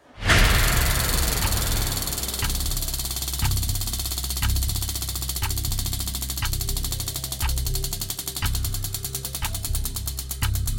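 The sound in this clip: A game-show prize wheel, the head spin wheel of consequences, being spun: regular ticking clicks about once a second over a loud, steady rumble.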